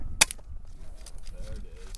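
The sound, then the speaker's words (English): A sharp, single crack of an air rifle shot fired by a prone skier at a biathlon target range, rising abruptly early on over a low, steady background rumble. “At the target range, the skiers fling themselves prone and fire air rifles at five black bullseyes.”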